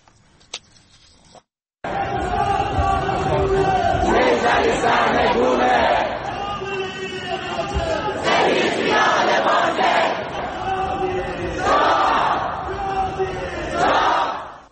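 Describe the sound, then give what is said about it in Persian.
A crowd of protesters chants at a rally in Melbourne, Australia, held in support of people in Iran. After a short quiet start the crowd noise comes in abruptly, loud and continuous, with the chant rising in repeated rhythmic waves. “این صدای تجمع کنندگان در ملبورن بود.”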